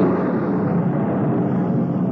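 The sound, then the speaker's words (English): A blast-of-wind effect in a Snow White radio drama as the evil queen calls on dark powers: a steady, loud rushing roar that holds evenly for the whole clip, with no voices. “Oh, powers of evil, hear me. Send a blast of wind to fan my hate. A thunderbolt to mix it with.”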